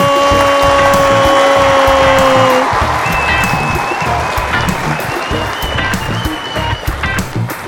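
An audience applauds and cheers to welcome a guest: a loud, dense, steady clatter of clapping throughout, with held musical tones under it during the first few seconds.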